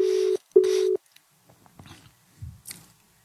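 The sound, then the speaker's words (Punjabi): A telephone dialing tone sounds as a call is placed: two steady, fairly loud tone bursts separated by a short gap, followed by a few faint clicks and soft rustles. “ਦੂਜਾ phone ਘੁਮਾਉਣਾ ਸੀ”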